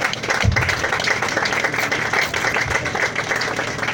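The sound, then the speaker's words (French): A church audience claps for Jesus during a service, a dense, steady patter of many hands that stays loud and even throughout. “Can we put our hands together for Master Jesus?”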